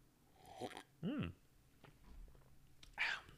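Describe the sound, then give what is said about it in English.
A person sips tea from a cup, a few faint wet slurps and mouth noises separated by pauses, with no talking. “one second, I'm going to sip my tea because my mouth's getting dry.”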